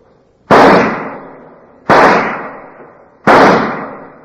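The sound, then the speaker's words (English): Three sharp, loud pistol shots crack at an indoor firing range, evenly spaced about a second and a half apart. Each shot leaves a short echoing tail that fades before the next. “an FBI agent is practicing at an indoor pistol range. He is firing his last rounds”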